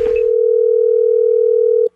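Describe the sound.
Telephone dial tone heard while placing a call: a single steady, mid-pitched continuous hum that holds evenly for almost two seconds and then cuts off abruptly, with no talk over it.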